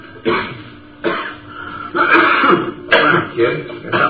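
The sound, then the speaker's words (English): A kid clears his throat again and again, several rough, gravelly bursts with a cough or two among them, separated by short pauses and growing longer toward the end. “Kid, got something in your throat?”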